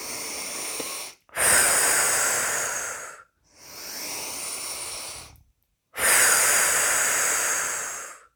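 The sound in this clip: Exhalations during a guided relaxation breathing exercise: a series of long, airy, hissing breaths, each lasting about two seconds and separated by brief pauses.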